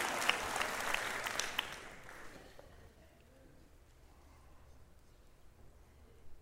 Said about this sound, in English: We should be applauding Him. When we clap, I'm going to give you a chance in a second.